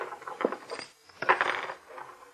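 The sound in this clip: Coins dropping and being picked up, heard as a few faint, scattered metallic clinks over a couple of seconds.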